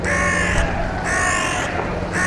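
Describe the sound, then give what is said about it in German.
Carrion crows cawing in Stirling, Scotland: a few harsh, hoarse caws, each drawn out and evenly spaced, sounding over a steady wash of background noise. “Auch er fahndet nach Unterschieden in den Lautäußerungen von Vögeln. Bei Rabenkrähen in Stirling selbst”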